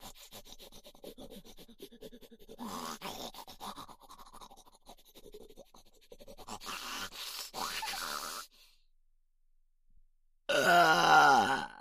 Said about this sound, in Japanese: これは大きなゲップが来そうです。ゲップ出る。ブヒブヒブタマネしながら特大ゲップ発射いたしますわ。